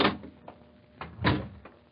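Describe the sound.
A door opening in an old radio drama, heard as a few soft, muffled thumps and rattles of the frame and latch, faint and without voices.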